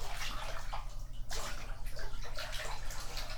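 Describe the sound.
Water rinsing a dog during a bath, a steady spray and splash of running water with several louder gushes, over a low constant hum.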